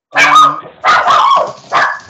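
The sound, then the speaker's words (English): An excited puppy barking in a few quick, high, yappy bursts with short gaps between them, loud and up close. “You've got an excited puppy dog there.”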